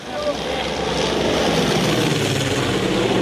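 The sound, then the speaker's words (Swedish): Steady engine drone of firefighting planes dumping water on a major wildfire near the village of Alinica, a loud, even rumbling hum that persists throughout. “planes dumping water to try and stop the path of destruction.”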